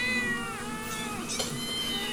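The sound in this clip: A cat meows faintly in a drawn-out, whining voice. Its pitch dips and then rises again across a few wavering cries, with no other sound alongside.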